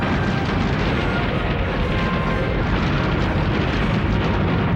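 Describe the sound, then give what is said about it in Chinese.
A fleet of space warships fires its cannons together in a barrage, heard as a dense, continuous roaring rumble that stays steady and loud throughout, with no separate blasts standing out. “就是现在，全舰右舷90度回头，一起炮击。”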